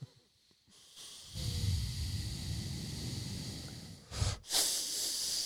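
A group taking a deep breath in through the nose: a long, airy nasal hiss swells up after a near-silent start and holds for several seconds, then ends in a couple of short, sharper bursts of breath.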